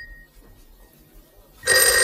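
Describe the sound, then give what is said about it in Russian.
A telephone bell rings loudly, bursting in near the end after a quiet stretch and ringing on to the cut, with a faint brief tone at the very start. “Телефон звонит. Ну, я полагаю, нам лучше ответить.”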